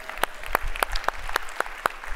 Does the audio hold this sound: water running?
no